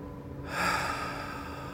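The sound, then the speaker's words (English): A deep breath drawn during a guided relaxation session: a soft, airy rush that begins after a brief quiet moment and continues steadily to the end, with no talking. “I invite you to take some nice, full, deep breaths.”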